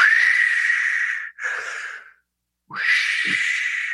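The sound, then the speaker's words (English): A person takes three deep breaths out, each a loud, airy exhale; the second is shorter and is followed by a brief silent pause before the long final one. There is no talk. “I breathe out 3 times.”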